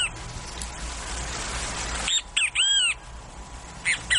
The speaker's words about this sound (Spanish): El venteveo es un pájaro muy común en el país.